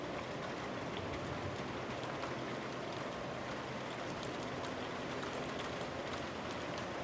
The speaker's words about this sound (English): And cold front's coming through, and it's rainy, and that's the sound of rain.